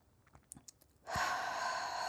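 A long breath out through the mouth during a guided breathing exercise, a steady, breathy rush that starts abruptly and holds evenly to the end, preceded by a few faint clicks.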